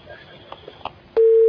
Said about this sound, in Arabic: طب انقطع الاتصال الهاتفي